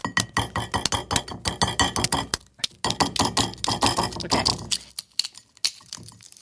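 A gray-blue, dark-spotted egg shell is cracked and broken away, giving many rapid, sharp crackling clicks and crunches in dense bursts. A brief pause comes partway through, and the clicks thin out and grow fainter toward the end.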